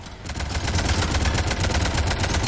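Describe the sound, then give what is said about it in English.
Rapid automatic gunfire from a video game firefight, a dense, fast, steady rattle of many shots over a low rumble, with no talk. “We're shooting him.”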